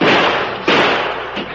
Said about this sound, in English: I've got some shooting to do.